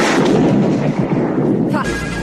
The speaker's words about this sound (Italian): Spara sulla radio. La radio della polizia